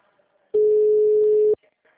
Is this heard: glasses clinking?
no

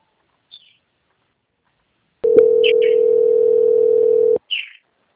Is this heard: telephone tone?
yes

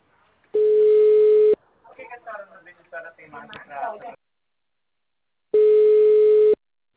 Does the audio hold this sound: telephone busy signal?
yes

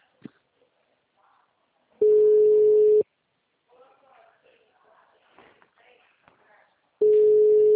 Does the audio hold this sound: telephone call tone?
yes

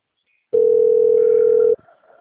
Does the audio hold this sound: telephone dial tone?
yes

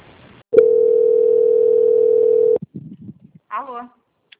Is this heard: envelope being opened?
no

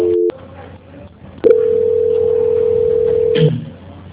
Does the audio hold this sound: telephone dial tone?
yes

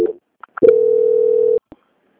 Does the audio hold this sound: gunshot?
no

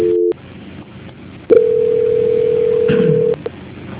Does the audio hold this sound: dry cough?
no

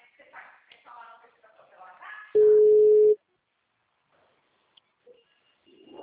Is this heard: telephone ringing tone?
yes

